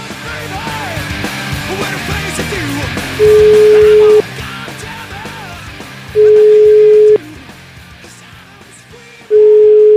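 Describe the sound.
Telephone ringback tone on a phone line during a call: three long, steady, mid-pitched tones, each about a second, separated by gaps, over a busy background of voices.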